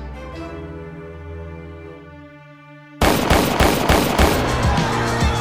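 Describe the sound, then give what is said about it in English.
Gunfire from a pair of 9mm pistols in a recording-studio hallway: a held tonal note gives way abruptly to a loud rapid burst of sharp shots. “The shots came as soon as he entered the hallway at Quad Studios, five of them, from the pair of 9mm carried by the roughnecks shaking him down.”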